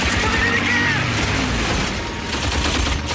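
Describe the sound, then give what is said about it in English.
Gunfire from a gunner aboard a B-17 Flying Fortress bomber shooting at an attacking enemy fighter: a dense, rattling stream of rapid shots that stays loud and continuous throughout, blended with rushing noise. “A lone flying fortress is being harassed by an enemy fighter. One of the bomber's gunners opens fire.”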